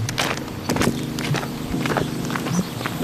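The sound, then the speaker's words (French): Footsteps walk through a garden toward beehives past aromatic plants. Several soft, scuffing steps fall at an uneven pace over a steady background rumble. “Pour marcher jusqu'à côté des ruches. Alors, on va passer par là.”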